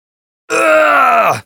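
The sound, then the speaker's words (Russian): A single loud, drawn-out cry of pain in a hall with granite columns. The wordless groan lasts about a second and drops in pitch as it ends. “По залу разлетелся крик боли.”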